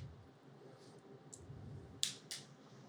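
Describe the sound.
A lighter is struck to light an E.P. Carrillo Pledge Prequel cigar, with a few faint ticks followed by two sharp, crisp clicks close together near the end over a quiet background.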